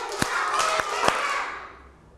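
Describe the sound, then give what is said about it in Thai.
Children clap their hands during a classroom activity led by a teacher: a few crisp, separate claps rise above a busy wash of young voices and murmur, then the sound tapers off. “ปรบมือ5ครั้ง”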